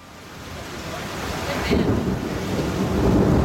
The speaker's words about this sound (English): As you can hear, we are caught in the storm here in Croatia. You can hear that in the background. A monster of a thunderstorm has caught us in the Mljet National Park